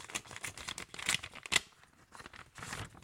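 Paper rustling and tearing as an envelope is opened: faint, irregular crinkling bursts with a couple of sharper rips.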